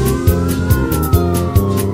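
A loud emergency vehicle siren wails from fire engines, police cars and an ambulance that have blocked off a street. It is one steady tone that rises and falls slowly in pitch, with regular rhythmic pulses beating underneath.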